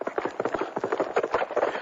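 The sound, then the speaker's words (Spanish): A horse at full gallop, its hoofbeats drumming in a fast, continuous rhythm of many dense, overlapping thuds that stay steady and loud throughout. “Montó de nuevo en su caballo colorado y se arrancó a todo galope.”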